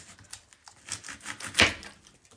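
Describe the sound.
A knife cuts through an onion, trimming off the tougher part, with faint, irregular crisp crunches and one louder snap of the blade partway through.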